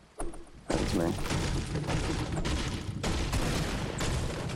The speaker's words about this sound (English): Somebody's shooting at us. No, that was me shooting.